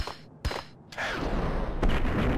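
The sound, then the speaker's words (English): Grenade explosion in a video game shooter: a sharp bang at first, then loud rumbling blast noise that keeps roaring, with another burst lifting it near the end. “except every time I took a random grenade to the face.”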